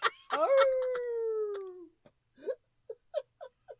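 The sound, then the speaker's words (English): A person imitates a wolf howl: one drawn-out howl sliding steadily downward in pitch, followed by several short, faint yelps. “I rate dogs a howl. Or should I just howl?”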